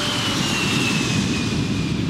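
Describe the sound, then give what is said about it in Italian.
A steady, loud aircraft engine roar from an Airspeed Ambassador airliner with two engines per wing, taking off from Belgrade. A faint tone drifts slowly lower over the continuous drone. “Il velivolo con i Busby Babies decolla da Belgrado alle 10 del mattino.”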